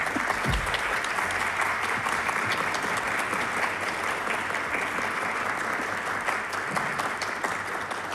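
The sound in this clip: An audience claps to welcome the conductor of a Turkish folk music choir at a concert. The applause is a loud, dense, steady wash of many hands that holds evenly for the whole stretch, with no talk over it.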